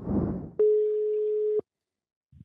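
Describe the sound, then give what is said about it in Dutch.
A telephone call ringing out: one steady, mid-pitched ringback tone lasting about a second, heard alone after a brief low rumble. “En die gaan we nu even proberen te bellen.”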